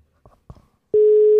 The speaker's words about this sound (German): So, also, ich drücke mal auf Wählen.